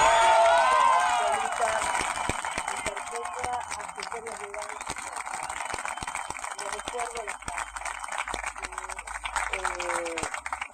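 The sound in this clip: Noisy crowd celebrating in a courtroom during a verdict reading: a loud burst of shouting and cheering at the start settles into a sustained, dense crowd din, with voices mixed through it.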